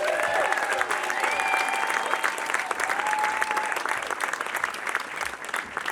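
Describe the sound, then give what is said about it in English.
Audience applause at a live Star Trek: Picard cast and producers Q&A in an IMAX screening: steady, dense clapping that holds at a loud level throughout, with a few whistles riding above it. “Please give it up for executive producer and showrunner for Star Trek Picard Season 3, Terry Metalis.”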